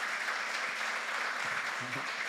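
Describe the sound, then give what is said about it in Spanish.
Applause from an audience welcoming first-time visitors: a steady, even wash of many hands clapping that lasts the whole clip at a fairly soft level, with no single claps standing out. “quiero pedirles a todos un aplauso para ellos.”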